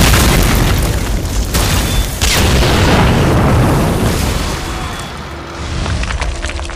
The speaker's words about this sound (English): Just let me make sure the charges go on straight. There, we are go for blasting. Goggles! Blast away.